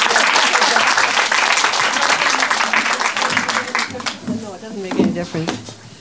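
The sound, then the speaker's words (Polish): Audience applause at a church gathering: a steady, dense wash of clapping that continues throughout, thinning slightly toward the end as a voice begins speaking over it. “Jeszcze raz ją zachęćmy oklaskami i oddajemy jej czas.”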